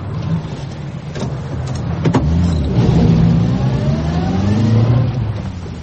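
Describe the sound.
A car engine revs as the car pulls away onto a road at night. The mid-pitched engine drone swells louder and holds steady for several seconds, with no voices.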